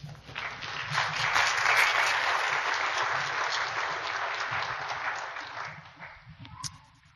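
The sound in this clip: Audience applause welcoming a speaker, dense and sustained clapping that swells over the first couple of seconds, then slowly tapers toward the end.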